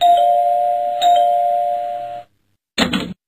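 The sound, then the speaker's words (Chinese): A home doorbell chimes in a clear, sustained electronic tone, struck twice in close succession before ringing out. A brief burst of sound follows after a short silence. “不一会儿啊，家里的门铃就响”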